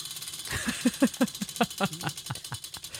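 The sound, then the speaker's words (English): A prize wheel spun by hand gives a run of many sharp clicking ticks. They start quick and spread steadily farther apart as the wheel slows, with no talk over them. “We also have a wheel. I want to spin it. Let me see if they can hear it.”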